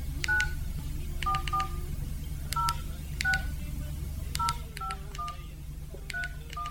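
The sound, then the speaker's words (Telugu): Touch-tone beeps as a telephone number is dialed on a keypad, many short tones in quick clusters of two or three separated by brief pauses, over a steady low hum. “నాన్నకి phone చేయాలి.”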